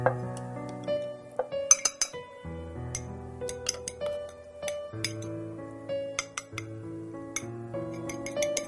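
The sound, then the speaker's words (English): Many light, sharp clinks of a spoon against a glass, irregular in rhythm, as cooked pomelo and honey are stirred into hot water for tea. “To make the tea, we put 1 spoon of the cooked pomelo and honey in hot water.”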